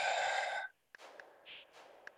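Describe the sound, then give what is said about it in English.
A deep, gentle breath in and out during a guided breathwork meditation. A voiced tone trails off, then a soft, airy breath follows with a few faint clicks. “inviting you to take a nice big gentle breath in and out.”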